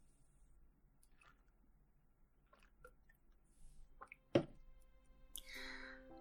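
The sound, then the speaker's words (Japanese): Faint sipping and swallowing of White Horse whisky drunk without ice: soft, wet mouth sounds, a sharp gulp near the end, then a brief breathy sound. “そろそろお酒の方もあともう一口二口なので飲んじゃいたいと思います”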